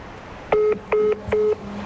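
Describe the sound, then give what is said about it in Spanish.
Touch-tone beeps as a telephone number is dialed, three short steady electronic tones of equal length and even spacing over faint background hiss. “A ver, otra vez, vamos a marcar y vamos a escuchar qué se dice.”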